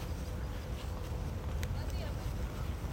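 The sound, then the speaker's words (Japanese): Wind by the sea along the shore, a faint, steady low rumble of gusting air that persists throughout without clear breaks. “だからこうやってね海辺を歩くのはなんかワクワクして楽しい。あと水面ってなんかずっと見てられるんですよね。”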